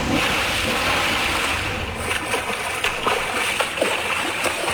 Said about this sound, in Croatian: Jo, ovi valovi, pa ljudi moji.